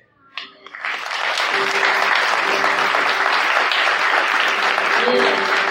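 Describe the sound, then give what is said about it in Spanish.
A church audience applauds at a Sunday service. After a few sharp claps, the clapping swells quickly into loud, sustained applause with voices mixed in, and it holds steady to the end. “Un para Dios, un aplauso.”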